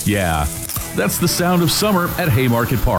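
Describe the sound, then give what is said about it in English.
Food sizzling at a ballpark concession stand at Haymarket Park, a steady bright hiss running under a man's voice that talks throughout. “Sizzling concessions.”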